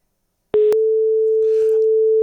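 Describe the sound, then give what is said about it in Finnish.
A telephone ringing tone sounds on a call line: a click, then one loud, steady, single-pitched tone lasting under two seconds, heard alone. “ainakin se soi. Se on aina positiivista. Se tarkoittaa, että ei ole vielä ainakaan akku loppu.”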